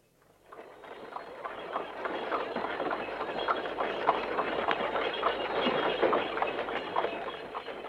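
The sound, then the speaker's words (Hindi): A horse-drawn tonga cart moves along with a rhythmic clatter of hooves and rattling wheels. It fades in at the start and then keeps up a steady, regular clip-clop at moderate loudness. “रजा मकान देखने गया और तांगा रजा के घर की तरफ चला।”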